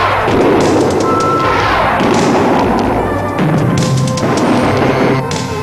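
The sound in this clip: Blaster fire blasting a hole to escape a spiky ceiling trap in a cartoon action scene: a loud, continuous wash of booming thuds and crashing noise with no clear gaps.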